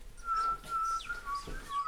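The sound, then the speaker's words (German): A person whistles in imitation of a bullfinch's call. The soft, thin, level notes come in several short phrases with a slight drop in pitch partway through, all quiet over faint low background noise. “Die Vögel der Heimat. Der Dumpfaff. Der Dumpfaff pfeift so.”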